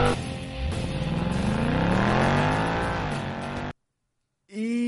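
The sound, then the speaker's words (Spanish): A car engine starting with a turn of the key, then revving: a loud, harmonically rich roar climbs steadily in pitch, cuts off abruptly into silence, and a short second engine burst follows. “prepárense a encender motores, giren la llave y arrancamos.”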